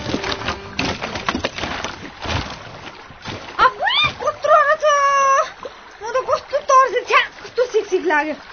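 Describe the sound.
Water splashing and sloshing as clothes are washed on the bank of the Rosi river, with irregular splashes early on, then girls' voices talking over it.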